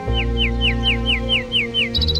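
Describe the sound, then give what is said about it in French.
A nightingale sings a rapid run of repeated, clear, descending whistled notes, then ends with a quick burst of higher chips, over a steady low hum. “Donc ça, c'est un rossignol. Il vient de chanter”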